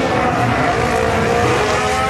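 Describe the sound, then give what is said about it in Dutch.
A racing car engine revving too high as grip is lost, heard as a loud, continuous, high-pitched engine whine with a dense stack of tones that holds steady throughout, with no voices over it. “Komt te hoog in toeren.”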